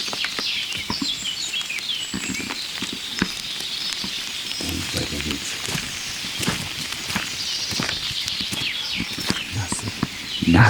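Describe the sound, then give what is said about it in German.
Wet footsteps squelching and pattering through wet ground, a few soft, irregular steps mixed with dripping and faint bird calls, ending in a louder rustle. “Nasse Schritte.”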